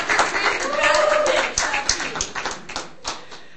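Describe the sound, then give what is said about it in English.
A comedy show audience claps and cheers to welcome a comedian onstage, bright dense clapping with sharp hand transients that is strongest early and thins toward the end, with voices mixed in. “everybody put your hands together”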